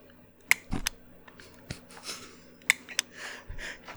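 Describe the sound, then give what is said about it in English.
A butane torch lighter is clicked repeatedly, giving several sharp, dry clicks at uneven intervals with a few louder snaps among them and quieter scratchy ticks in between. “it's any butane lighter that this can happen to. So it's not just a torch lighter. But there's this little noise that it makes whenever you click it.”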